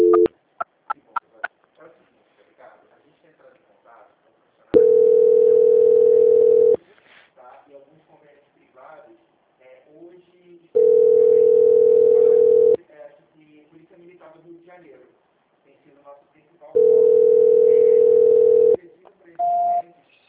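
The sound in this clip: Telephone tones while a call is being transferred: three long, steady mid-pitched tones separated by pauses, with faint voices in the gaps and a short, higher beep at the end.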